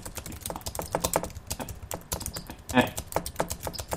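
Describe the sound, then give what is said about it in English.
Typing a sentence on a computer keyboard, a rapid, irregular stream of soft key clicks with an occasional slightly louder keystroke, fairly faint throughout. “So let's escape. Menu closed. And then we can type in a sentence.”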